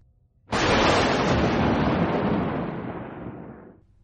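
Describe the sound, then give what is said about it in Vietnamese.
A loud thunderclap bursts from a dark sky during a sudden storm, hitting abruptly at full force and then rolling off into a broad, rumbling roar that fades steadily over about three seconds. “một tiếng sấm kinh hoàng vừa nổ ra trên bầu trời đen kịt”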